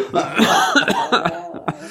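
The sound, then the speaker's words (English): A man coughs in a quick, uneven series of harsh bursts, fairly loud and close together. “Now you've got me coughing.”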